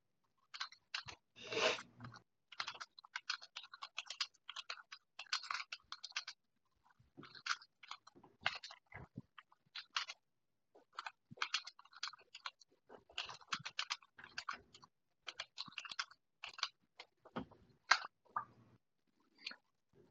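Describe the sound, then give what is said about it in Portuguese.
Typing on a keyboard: quiet, irregular bursts of key clicks separated by short pauses, continuing for many strokes with no voice. “Deixa eu escrever para você porque vai influenciar a sua ação logo na sequência.”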